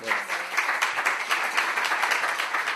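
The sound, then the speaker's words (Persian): A group claps for a birthday, with many hands beating in a dense, steady patter at an even level. “صدای دست ما رو تو گوش خودت حس کن”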